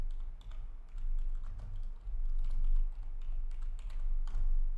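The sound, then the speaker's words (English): Text message being typed on a phone: many soft, quick, irregular taps and clicks over a low steady hum. “And my phone with the shit. Let's get it. I think I can still text though. Let me see.”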